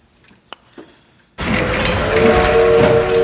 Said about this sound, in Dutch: Een trein rijdt weg bij het station van Hogeveen.